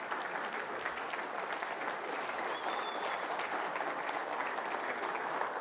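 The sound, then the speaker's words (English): Audience applause greets a speaker coming to the stage: dense, steady clapping from many hands, loud and continuous without a break from start to finish. “as we have JR come to the stage, let's give him a round of applause. Let's hear it for Roddy.”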